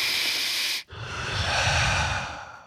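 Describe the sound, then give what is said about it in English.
A deep breath is drawn in with a bright, hissing rush, then after a brief pause is let out in a longer, lower exhale, close and alone. “Take a big breath in, take a big breath out.”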